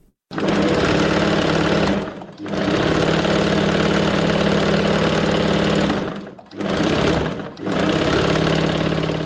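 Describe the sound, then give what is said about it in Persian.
A tailor's sewing machine whirring at home in Kabul, running steadily and loudly in four bursts separated by brief pauses, with one short spoken word. “صدای ماشین خیاطی مشوق‌الا است.”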